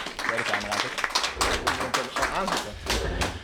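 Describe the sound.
A small round of applause welcomes a guest onto a Dutch talk show: brisk, light clapping from a few people, mixed with talking voices throughout.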